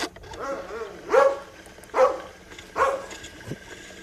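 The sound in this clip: A pull-string toy imitates a dog barking: three short, evenly spaced bark-like yelps stand out over a low background, followed by a fainter brief blip.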